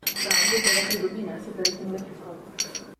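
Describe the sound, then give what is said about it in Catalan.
Wine glasses clink in a toast between friends, with bright chinks clustered in the first second and a few more later, heard alongside voices. “Això eren unes copes. Jo vaig dir que era com un cambrer recollint les copes així amb la mà. Era un brindis entre amics.”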